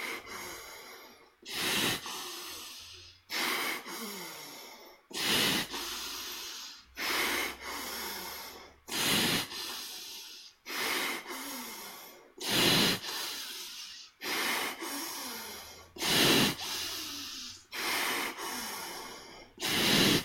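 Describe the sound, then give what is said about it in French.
Forceful bellows breathing through the nose, alternating nostrils: many sharp, hissing breath bursts in a steady, even rhythm, each stroke pushed hard, with no talk over them. “C'est une respiration de soufflet qui est assez dynamique. Expire, inspire d'un côté, expire, inspire de l'autre, dans le soufflet.”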